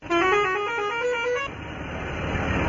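Loud vehicle horns honk on a road where buses carry full loads of passengers. A sustained, stepped, multi-tone blare lasts about a second and a half, then gives way to a steady rumble of passing traffic.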